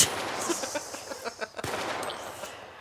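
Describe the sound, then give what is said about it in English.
Rapid gunfire from a gun being fired off, with many sharp cracks in quick, irregular succession over a noisy background and one especially abrupt bang partway through. “Are you firing a gun off right now? Yes, I am.”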